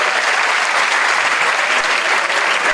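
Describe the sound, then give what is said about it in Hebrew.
Audience applause, a dense, steady wash of many hands clapping at even loudness throughout, with no clear pauses. “איפה כפיים לזאת שפתרת את האלומה?”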